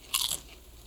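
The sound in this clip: Crunchy chips with cheese bitten once, a brief, sharp, crisp crunch that stands out clearly before fading to quiet; no voices are heard.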